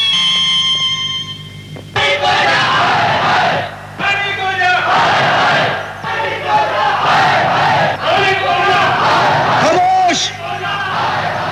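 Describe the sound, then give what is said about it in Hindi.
An agitated crowd shouts in a noisy commotion, many overlapping voices yelling and bellowing together at a loud, fluctuating level for nearly the whole stretch. “इस तरह शोर मचाने से, उधम करने से कुछ नहीं मिलेगा।”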